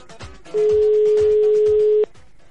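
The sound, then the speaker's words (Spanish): A steady, loud telephone tone holds for about a second and a half while a number is dialed for a call to a radio show. Soft background music plays underneath. “Estamos marcando.”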